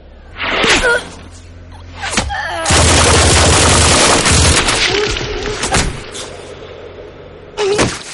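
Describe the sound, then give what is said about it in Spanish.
Machine gun fire by soldiers in a 2012 zombie horror-comedy film: loud, short bursts of gunfire, then a dense, sustained volley of rapid shots lasting a few seconds, and a final brief burst after a lull. “Disparan hacia ellos con sus ametralladoras llenando sus cuerpos de balas y sangre.”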